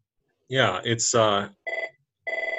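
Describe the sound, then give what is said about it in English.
A telephone ringing, with two short bursts of high, trilling ring after a voice speaks briefly at the start. “Phone is ringing.”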